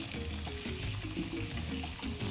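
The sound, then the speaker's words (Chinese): Tofu frying in oil in a pan until browned, a dense, continuous sizzling crackle and hiss that stays at an even level throughout with no voices. “好，把它煎到上色、哦、它会膨胀起来”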